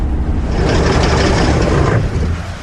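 Car engine faltering during a storm: a loud, steady, rumbling roar with hissing noise that drops and fades over the final half-second.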